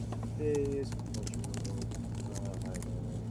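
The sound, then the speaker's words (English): Fingers type a search for anime streaming services on a computer keyboard, producing quick, light key clicks in an irregular patter. The clicks are faint and sit over a steady low hum. “I'm actually searching right now, if I Google it right now, official anime streaming services.”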